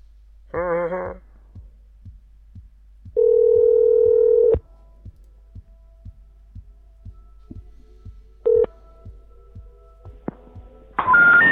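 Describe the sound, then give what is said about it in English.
Dialing a cell phone number on a telephone: a steady dial tone and a few short tones, with soft, regular clicking between them and no talk. “Do we have another number for Lindsay? Yeah, I think we got Lindsay's cell phone. All is not lost. Let's call Lindsay's cell phone.”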